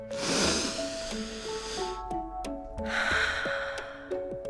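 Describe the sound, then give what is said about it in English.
A deep breath drawn in and slowly released: a long airy inhale, a brief pause, then a breathy exhale, all over soft sustained musical tones. “let's take a deep breath.”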